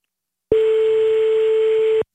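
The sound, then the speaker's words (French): A steady telephone dial tone sounds on the line as a call is placed to a father. One unbroken mid-pitched tone holds evenly for about a second and a half and then cuts off, with no voices over it. “On y va, on appelle tout de suite.”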